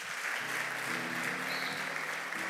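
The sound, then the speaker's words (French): A church audience applauds for the youth. The clapping is a dense, even patter that holds steady from start to finish with no voices on top. “Est-ce que nous pouvons acclamer pour la jeunesse?”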